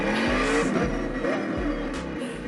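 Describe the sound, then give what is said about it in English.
A Ford GT engine roars in a racing simulator video game, loud and continuous, with its pitch sweeping upward a few times as it revs and accelerates, plus a hint of tire squeal. “All right, here we are in the Ford GT simulator. I'm trusting Cam to drive.”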